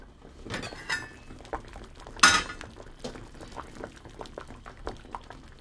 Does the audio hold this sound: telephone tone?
no